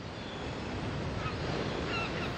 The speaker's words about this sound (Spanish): la mar se enfureció tanto que elevó sus olas hasta casi llegar al cielo, convirtiéndose en un gran tsunami.